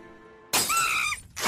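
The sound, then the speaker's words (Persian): Glass windows smashed at the mayor's house: a loud, bright shattering crash with squealing tones, following a quiet hum, then a second burst of breaking glass starting at the very end. “خونه شهردار، استیو شیشه ها رو میشکنه، تابلوی عکس شهردار رو پاره میکنه، همه جا رو به هم میریزه.”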